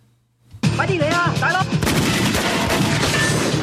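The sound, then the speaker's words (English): Rapid gunshots from two handguns fired at a metal door: after a brief quiet start, many loud shots crack out in quick succession and continue as a dense barrage to the end. “with a gun in each hand, is firing at the metal door that leads into the storage room.”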